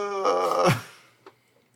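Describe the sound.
A human voice performs a drawn-out groan in a spooky tabletop game, a loud moaning tone that bends down in pitch and fades, followed by a faint short click.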